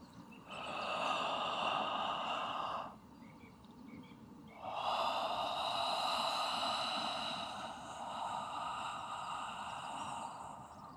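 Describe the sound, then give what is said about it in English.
Breaths drawn through the mouth, heard alone. A hissing breath of about two seconds is followed after a pause by a much longer one, both breathy with a faint whistling tone. “Breathe through your mouth. Your breath will be short at first. Only a few, maybe a 3 or 4 seconds, it's going to sound like this.”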